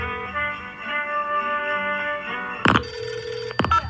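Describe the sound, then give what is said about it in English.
A telephone bell rings in two short, loud bursts near the end, after a quieter stretch of soft tones. “telephone. Phone call?”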